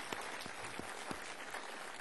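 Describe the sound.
A church audience applauding to welcome new believers, a faint, steady wash of many hands clapping without a break.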